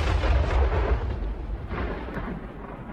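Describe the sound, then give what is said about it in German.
Explosive blasting of rock for a monument carved into a mountainside in South Dakota's Black Hills, heard as a deep, sustained rolling roar with no sharp onset that fills the whole clip. “Ein Monument, das in Fels gesprengt wird.”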